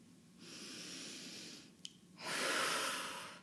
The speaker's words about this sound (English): let's just take a really, really deep breath together.